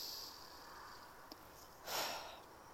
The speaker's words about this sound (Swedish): Det här är automatik. Andetag.